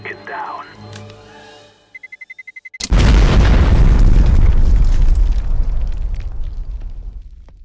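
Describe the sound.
A grenade explosion sound effect: a run of rapid electronic beeps, then a sudden, very loud, deep boom whose rumble slowly fades.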